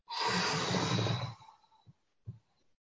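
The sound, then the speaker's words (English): A long, full exhale emptying the lungs during a guided breathing exercise: a loud breathy rush lasting over a second that tapers off, followed by a couple of faint soft breath sounds. “So just let all the breath go in preparation.”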